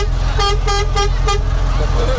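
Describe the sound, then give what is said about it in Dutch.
A vehicle horn at a red traffic light sounds four quick honks of steady pitch in a regular rhythm over a loud, continuous low engine rumble. “Ze horen de toeter. Ze horen jullie toeter. Hey. Ja. Ze blijven maar toeteren.”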